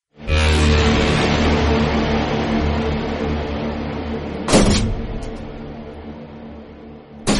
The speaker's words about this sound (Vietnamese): Tiếng đập mạnh của cánh cửa căn nhà mát trên sân thượng đóng vào vang to lên khiến cho cả hai anh em giật nảy mình.